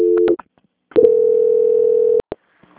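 A telephone call-transfer tone: a brief tone, then a loud, steady single-pitch tone holding for over a second, with sharp clicks around it on the line.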